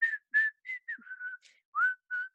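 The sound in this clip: A person whistles a short, bright tune as a greeting. Clear, mostly even-pitched notes follow one another with brief gaps, the later notes held a little longer, with no talk.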